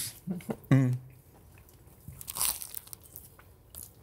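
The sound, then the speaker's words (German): Chewing a bite of a sandwich topped with coleslaw, sweet mustard and braised meat: soft wet crunches and squishes from the mouth, with a brief hummed murmur among the first bites, then quieter smacking. “So, jetzt habe ich den Mund fast leer. Man kann sagen, schmeckt großartig. Also dieser Krautsalat da drauf gibt der Sache schönen Kick. Der süße Senf und das Fleisch ist perfekt durchgeschmort.”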